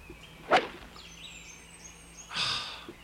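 A golf club swings at a normal golf ball on a tee and misses, cutting only grass. Two faint swishes are heard, a sharp brief one early and a broader, longer one near the end.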